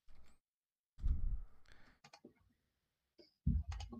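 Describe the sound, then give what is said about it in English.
A password being typed on a keyboard: a few short bursts of faint key clicks separated by brief pauses. “I just got to type in my password and stuff.”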